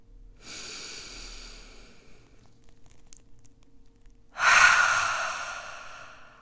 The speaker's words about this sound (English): I'm going to ask you to take a big breath in and exhale all the way.